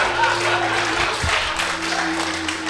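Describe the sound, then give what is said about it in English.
A crowd worked into a frenzy roars and claps, making a dense, continuous wash of noise at steady loudness, with a low sustained hum underneath. “As the crowd is ripped into a frenzy, Filge feels a familiar feeling”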